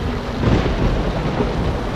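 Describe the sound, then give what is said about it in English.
A thunderstorm: a steady, dense hiss of heavy rain with a low rumble of thunder rolling underneath, loud and unbroken for the whole stretch, with no voices. “I can see this storm does not seem to be letting up.”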